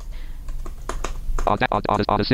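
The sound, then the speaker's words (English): A website address is typed on a computer keyboard in a series of quick clicking keystrokes, with a voice speaking toward the end. “So I'm just going to go ahead and type that in.”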